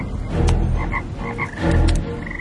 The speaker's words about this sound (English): So Aaron stretched out his hand over the waters of Egypt, and the frogs came up and covered the land of Egypt.